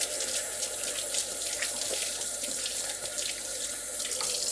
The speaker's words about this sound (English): Wash my hands.